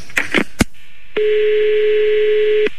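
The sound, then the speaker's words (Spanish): Telephone sounds as a number is redialed: a few short bursts and a click, then a steady, loud electronic tone that holds for about a second and a half before cutting off with another click. “Espera, pues, vuelvo a marcar otra vez, espera.”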